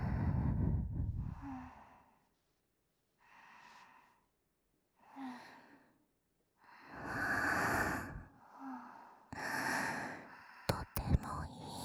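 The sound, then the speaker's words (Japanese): Slow breathing in and out during a guided breathing exercise, heard as several long, airy breaths separated by short silences, with a sharp click near the end. “吸って吐いて”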